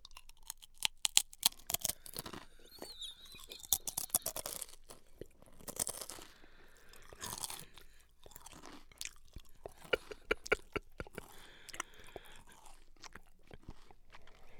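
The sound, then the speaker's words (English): Loud, crunchy chewing of a lettuce and pickle sandwich eaten with Sun Chips, with many sharp bites and crackles in an uneven rhythm across the whole stretch and no talking. “I could taste the sun chips, I'll tell you that much.”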